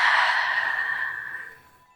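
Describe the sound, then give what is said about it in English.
A long, slow, deep breath during a guided relaxation exercise: a single breathy, airy rush that gradually fades out over about two seconds, with no speech. “Let us take a long, slow, deep breath in through our nose and exhale out our mouth.”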